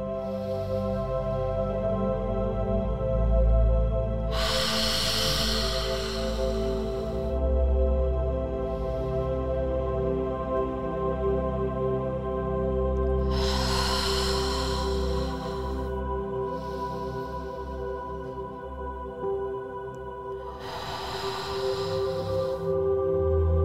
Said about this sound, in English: I want you to take four big belly breaths. In for four, hold, then out for four. Let's do it together.